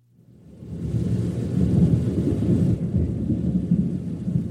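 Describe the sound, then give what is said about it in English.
Thunder rumbles during a storm, a deep rolling growl that swells up from silence and holds strong and sustained, with a soft hiss of rain above it. “Give me the thunder. Give me thunder.”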